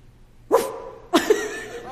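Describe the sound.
A human voice imitating a dog's bark for a puppet show, two short woof-like yelps, the second a bit longer with a brief trailing tone after it.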